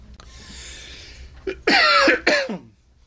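Coughing from an allergy tickle in the throat: a soft breath and a short throat sound, then two loud, harsh coughs in quick succession that fade out, with no talking.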